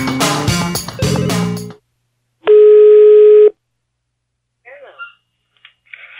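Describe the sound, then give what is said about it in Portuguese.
A telephone call ringing out: a single steady electronic ring tone about a second long follows a short burst of music, then a few faint, brief noises. “Eu vou ligar de novo agora, peraí. Aí, tá chamando aí.”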